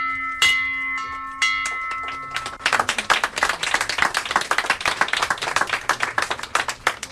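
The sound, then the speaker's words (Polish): A bell in a hospital maternity ward rings out in several bright, sustained strikes, and then a burst of applause follows with steady, rapid clapping that continues to the end. “Dzisiaj jako pierwsza pacjentka tego oddziału zadzwoniła pani w ten dzwon życia.”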